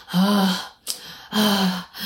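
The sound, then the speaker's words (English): A voice imitates heavy breathing with two long, drawn-out, voiced breaths, rough and moderately loud, separated by a short pause. A third breath begins just as the sound ends. “The heavy breathing, you sound like a scary movie. Like, the heavy breathing does this.”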